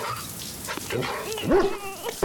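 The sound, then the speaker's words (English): An old dog barks a few times, giving sharp yelping bursts with a tonal, slightly rising edge. The barks are fairly loud against a busy background. “When Pam didn't respond to his barking, Bullet knew he would have to leave the baby and go to her”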